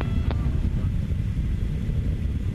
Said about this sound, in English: The solid motors are beginning to taper off.